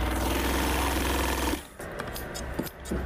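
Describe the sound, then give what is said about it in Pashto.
A sewing machine stitches a rolled pakol, an Afghan wool cap, in a cap-making shop in Kunar: a loud, steady, rapid mechanical drone lasts about a second and a half, then cuts off, leaving quieter scattered clatter. “یو کس چې پر کولوله شوي پکول د ماشین بخې راکاږي راته وایي چې څه ډول پکولونه ډېر ګنډي.”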